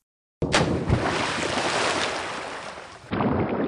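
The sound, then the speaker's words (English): Sea waves and wind rush steadily around a boat as its anchor is thrown overboard. A sharp burst comes near the start, and the wash shifts abruptly near the end. “Yeah, we got to throw our anchor off the boat here.”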